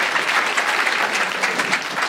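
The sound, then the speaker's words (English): Audience applause, a dense and even wash of many hands clapping at once, holding steady and fairly loud throughout with small swells. “Give them a big round of applause for your support, ladies and gentlemen.”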